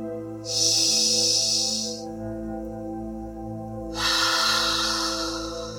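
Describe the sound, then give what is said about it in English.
Breath exhaled out through the mouth during a guided breathwork session: two long, soft, breathy rushes of air with a pause between them, over steady low sustained tones. “Maybe offering the exhale to come up and out through the mouth.”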